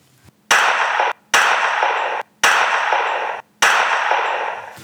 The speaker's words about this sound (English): Stop fucking shooting